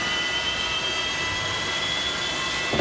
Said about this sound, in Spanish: comenzaba con este sonido, mirá. Como que el avión tomaba vuelo.